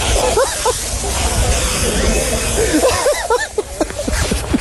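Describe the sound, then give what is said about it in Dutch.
Champagne sprayed across a motor race podium, a loud, steady broad hiss lasting throughout, with excited shouts and cheering voices rising over it. “dit is het legendarische champagne spuiten.”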